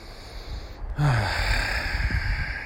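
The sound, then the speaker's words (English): A person draws one deep, audible breath of air, a sharp gasping inhale followed by softer, fading breathing, fairly quiet and with no speech. “that breath of air felt really, really good.”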